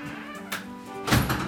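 The door of a red-brick bed and breakfast in Winnipeg opens with a light knock followed by a louder, fuller thud, both brief and moderately loud.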